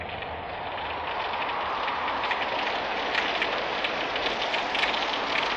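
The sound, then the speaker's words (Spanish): Rain pours during a night storm with strengthening wind, a loud, dense, steady hiss of drops that holds without a break throughout. “Y llovió.”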